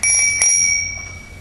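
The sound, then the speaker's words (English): A small bell that signals classes or church services is struck twice in quick succession, giving bright, high metallic rings that hold and then slowly fade. “you know it's time to start classes when the bell rings. Sometimes even chapel when the bell rings.”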